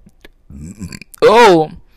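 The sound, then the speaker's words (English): A person burps: a low, rough, throaty belch, followed by a louder voiced vocal sound. “I don't know if you heard that. I hope you didn't hear that. I just burped.”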